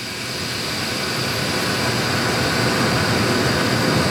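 A beer centrifuge discharging during beer filtering gives a loud, dense roaring hiss that builds slightly and holds steady for about four seconds, with no voices.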